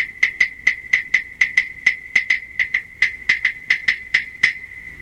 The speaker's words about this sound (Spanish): Así suenan las claves.